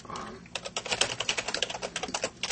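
Rapid typing on a computer keyboard while writing XML code: many sharp, uneven keystroke clicks in quick bursts, clear and moderately loud throughout.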